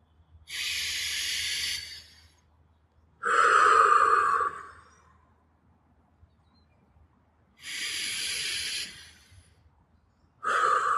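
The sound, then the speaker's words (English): Slow deep breaths in and out during a breathing exercise, each a long airy hiss of about two seconds separated by quiet pauses, with no talk. “Can we take a couple deep breaths again? Let's do three. And on the last one, let's try to take the biggest, deepest breath we've taken all week.”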